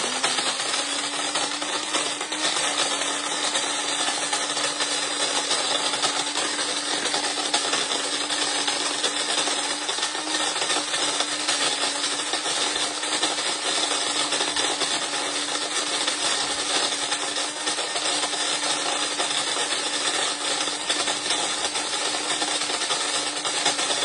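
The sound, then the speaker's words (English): Coffee beans ground in an electric grinder, a steady whirring motor drone with a constant low hum that holds unchanged at even loudness for the whole stretch. “All right, so I'm just going to grind up some coffee here.”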